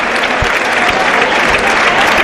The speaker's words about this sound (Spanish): Para esto están los aplausos, para premiar la voluntad, las ganas.